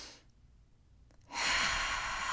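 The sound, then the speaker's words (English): A deep breath taken during a guided seated meditation: after a brief quiet, one loud, sustained, airy rush of breath carries on steadily to the end. “Take a deep breath.”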